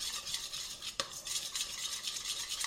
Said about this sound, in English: Stir it in really well. It's going to take a minute to get it all mixed in.